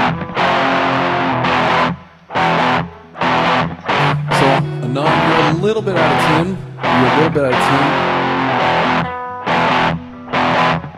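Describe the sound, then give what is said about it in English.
Electric guitar played through amp distortion on the neck pickup, slightly out of tune: loud, buzzing chords and riffs in bursts of a second or two, broken by short pauses. “Yeah, it's your distortion. It's your distortion, trust me. Trust me, it's your amp setting.”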